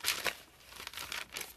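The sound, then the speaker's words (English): Paper from a notebook rustles and crinkles as it is handled, in several short, crisp bursts separated by quieter gaps, with no voices. “I got a notebook of some stuff. Let's see what else. Pulled out.”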